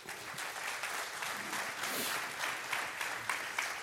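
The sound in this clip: A church audience applauds at an ordination service, with steady, dense clapping that holds at an even loudness for the whole clip and no voices standing out.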